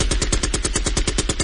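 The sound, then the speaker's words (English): A gunshot sound effect fires as a rapid burst of automatic gunfire, with many evenly spaced sharp shots in quick succession at a steady, fast rhythm. “Shots fired.”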